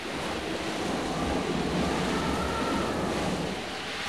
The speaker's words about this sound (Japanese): ああ、大荒れだわ。 突然発生したわね、台風。 波があんなに荒れてる。